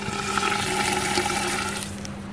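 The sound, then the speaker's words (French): Liquid nitrogen poured into a glass mortar holding wings hisses and bubbles in a continuous, steady rush of boiling noise at a fairly even loudness, with no talk over it. “Oui, dans un mortier en verre. Ensuite, on met de l'azote liquide.”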